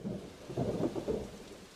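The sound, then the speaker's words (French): Rain falls steadily during a thunderstorm while low rumbles of thunder roll in a few swells, soft and without voices. “Le lendemain, il pleut, mais personne n'est triste.”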